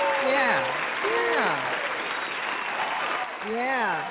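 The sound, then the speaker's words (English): Steady applause from an audience runs through the whole clip, with a voice talking over it from start to finish. “Well, I'm gonna give them an applause that they will keep on supporting me.”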